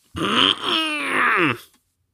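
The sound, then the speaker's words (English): A voice imitates a big bear hug with a single strained, throaty groan lasting about a second and a half, heard alone and cut off sharply at the end. “It's making a hug noise.”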